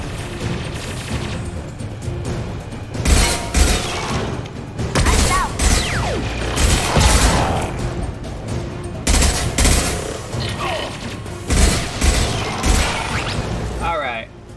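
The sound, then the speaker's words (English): Video game gunfire, with many loud bursts of rapid automatic shots and booming reports in irregular clusters, while players talk over the action. “Oh, wait, what are they shooting at?”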